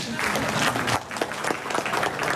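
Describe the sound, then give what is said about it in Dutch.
Dense, steady clapping from residents applauding at a neighbourhood meeting, a continuous wash of many hands that holds at an even level from start to finish. “Ik wil eerst eigenlijk als bewoner even mijn applaus voor deze man die even de nek gestoken heeft van ons.”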